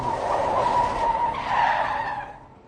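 A car pulls over and stops beside the curb with a sustained tire squeal, a fairly quiet, high tone lasting about two seconds before it fades away.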